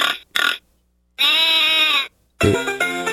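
Bleating from a pig-sheep hybrid animal in a video game: two short grunting bursts, then a long, steady, tonal bleat, then a rougher call at the end. No voices.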